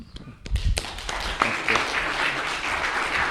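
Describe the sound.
Applause from a church audience welcoming a guest speaker to the front: sustained clapping that swells after a brief quieter start and holds steady through the rest.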